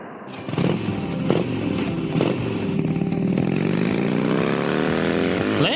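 A motorcycle engine revs loudly and steadily as the bike is ridden, its roaring drone rising in pitch over the second half with a gritty, rasping edge.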